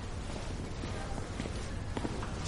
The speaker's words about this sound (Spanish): Asher camina despacio hasta la habitación que le ha señalado la enfermera.